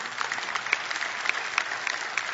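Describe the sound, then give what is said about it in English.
Audience applause, a dense and steady patter of many hands clapping at an even loudness throughout, with no voices over it. “Yeah, you can clap.”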